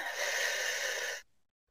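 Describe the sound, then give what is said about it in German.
One deep breath, heard as a steady, airy hiss lasting about a second that stops abruptly into silence. “Erstmal tief durch die Nase einatmen und durch den Mund wieder ausatmen.”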